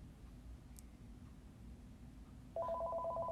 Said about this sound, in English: Sorry about the phone call, y'all.